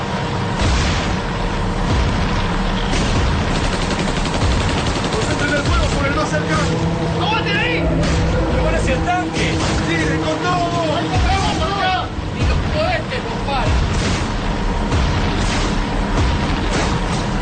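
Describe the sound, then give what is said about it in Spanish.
Battle effects for a radio drama: a tank's cannon and anti-aircraft guns fire bursts of heavy shells amid explosions, with repeated booms over a continuous rumble, all under ongoing talk. “Paco dispara ráfagas de enormes proyectiles contra las bestias. El tanque abre fuego avanzando por el flanco. Todo parece estallar, pero los Baumes siguen avanzando impertérritos.”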